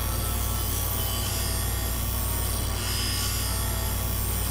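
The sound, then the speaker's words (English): A machine grinds a blank along a template with a steady, harsh rasping noise over a constant low hum. It runs without pause for the whole stretch. “Then you turn on the machine. And then you grind the blank along the template, like this.”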